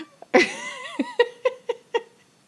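A house cat meows in the background with a wavering, drawn-out cry, then several short, clipped calls in an even rhythm, moderately loud.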